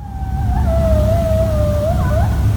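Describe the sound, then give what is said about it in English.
Coyotes howl outdoors near the Elkhart County 4-H Fairgrounds in Goshen: one long, high, wavering howl that holds a steady pitch, then warbles near the end, over a constant low rumble. “That's the sound of coyotes calling from the Elkhart County 4-H Fairgrounds, recorded at nearby Fiddler Pond Park in Goshen.”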